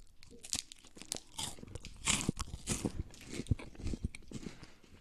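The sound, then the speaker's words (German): Crunchy chewing of a Knoppers hazelnut wafer bar: many irregular crisp crunches and bites, close and dry, with the crackle of wafer breaking between the teeth, and no talk. “Hier liegen Knoppersriegel, Nussriegel von Stork. Mmh, lecker, lecker, lecker, lecker, lecker.”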